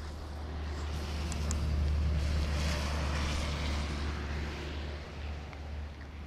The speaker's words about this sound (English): In Ísafjörður's harbour, sailboats rock back and forth in the wind.